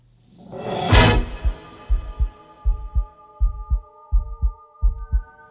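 Heartbeat sounds from a music recording: a swelling low tone gives way to a steady run of deep double thumps, lub-dub, under a sustained humming chord.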